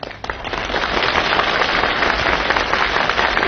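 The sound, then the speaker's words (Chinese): A stage audience gives thunderous applause, a dense, steady roar of clapping that holds loud and even for a few seconds. “你听观众的掌声，掌声如雷呀”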